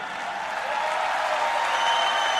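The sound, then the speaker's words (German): Dense, steady applause from a crowd holds at an even level for a couple of seconds, with no voices or breaks. “Dein Applaus.”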